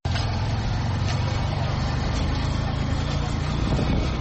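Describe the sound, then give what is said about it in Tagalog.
Steady engine drone and traffic noise at a parking lot in Uvira town where hundreds of motorcycle taxis gather, a continuous, dense rumble with no pauses. “Aha ni muri parking ziri mu mujyi wa Uvira ahari za moto zibarirwa mu majana.”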